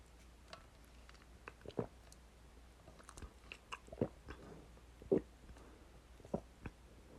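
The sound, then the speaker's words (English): Faint, wet biting and sucking mouth noises, a performer imitating a vampire biting and drinking blood: many soft, scattered smacks and clicks at irregular intervals over near silence. “Here, let me distract you with another taste of that delicious blood pumping through your veins.”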